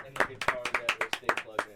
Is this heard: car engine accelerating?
no